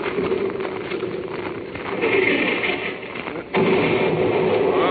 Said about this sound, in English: Sir, there's blessed good shooting. Near miss.